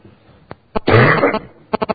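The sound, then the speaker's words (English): A cough with a harsh, throaty burst lasting about half a second, set between a short catch before it and a quick run of short, clipped bursts after it. “Bear with my cough this morning”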